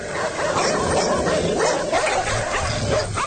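Several dogs bark and yip continuously, many quick overlapping barks forming a loud, steady chorus that fills the whole clip without pause.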